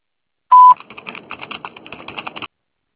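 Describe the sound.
A telephone line gives a single short, loud, steady beep before a voicemail message can be left. A run of faint, rapid clicks follows and lasts a couple of seconds.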